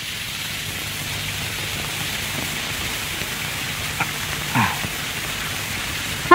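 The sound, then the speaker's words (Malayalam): Heavy, unseasonal rain in the month of Meenam, a dense, steady hiss of falling water throughout, with a couple of faint knocks near the end. “എന്തൊരു മഴ! തൊഴുത് പുറത്തിറങ്ങിയപ്പോ തുടങ്ങിയതാ. മീനമാസത്തിലെ മഴ എവിടെയെങ്കിലും കേട്ടിട്ടുണ്ടോ?”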